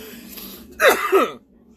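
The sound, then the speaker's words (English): A sneeze stifled into a cough: a single short, loud burst of about half a second with two quick pulses. It follows a faint low background and has no talk over it. “Excuse me, that was a sneeze. I converted to a cough so I wouldn't splatter all over.”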